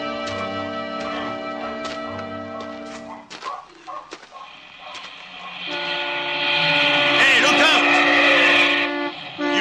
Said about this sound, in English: Why don't you watch where you're driving? Why don't you watch where you're walking? You American tourists with your high-powered station wagons. This isn't a high-powered station wagon, and it isn't mine.